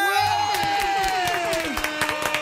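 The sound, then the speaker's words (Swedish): An audience claps, cheers and whoops for a DJ, with crowd shouts over the clapping and a sustained tone that slowly drops in pitch before fading out. “Men det sagt, vi ger en applåd och en fucking tuta till DJ Hånge!”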